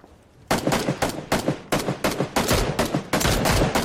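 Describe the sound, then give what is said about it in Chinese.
Sniper rifle shots in a battle-royale shooting video game: a rapid series of many loud, sharp cracks, each burst following closely on the last, with no talk over them. “他来狙击，狙击到了。”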